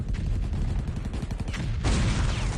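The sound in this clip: Rapid bursts of machine-gun fire in a wartime battle against tanks, a dense rattling stream of sharp reports that stays loud throughout and grows noisier toward the end.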